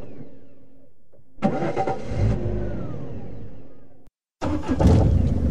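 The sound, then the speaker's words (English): A car engine starts and runs with a loud, rough revving roar, then cuts out abruptly. Moments later it fires up again and revs hard. “Reliable motor, this. Starts in all weathers.”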